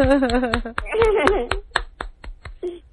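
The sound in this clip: A person claps their hands in a brisk, even rhythm to thank callers on a call-in program. Talk runs over the first half of the run of claps, and the later claps sound alone.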